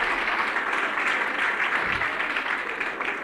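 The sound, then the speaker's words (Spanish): Audience applause at a lecture event in Santa Rosa: a dense, steady patter of many hands clapping at once, fairly loud and continuous for the whole stretch, tapering slightly at the end. “Este aplauso se lo paso a Virgilio, que sin duda está con nosotros.”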